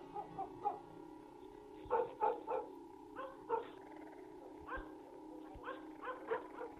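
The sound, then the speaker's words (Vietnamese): Dogs bark at night in many short, faint, irregular bursts, some barks coming in quick pairs and others spaced apart, with a low hum running underneath. “Mấy tiếng chó sủa vang lên đâu đó, làm cho bóng người kia bất giác giật mình lo lắng.”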